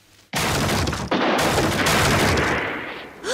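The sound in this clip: Gunfire blasting open a set of hinges in a video game: a loud, abrupt blast, then a second burst moments later, both merging into a sustained roaring rumble that fades at the end.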